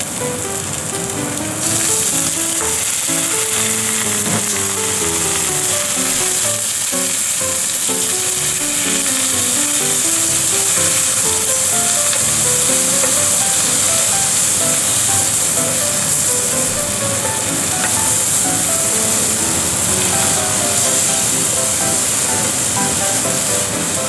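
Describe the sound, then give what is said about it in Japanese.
Yakisoba noodles sizzle loudly as they fry with cabbage and added water, a dense, steady hiss that runs unbroken through the whole clip. “キャベツもうちょっと入れよう。よし、焼きそばを入れます。水、”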